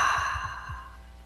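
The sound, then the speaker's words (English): A slow, soft exhale through open lips during a guided breathing exercise, a breathy sigh-like release that fades away over about a second. “Hold the breath. And slowly open the lips and exhale with a”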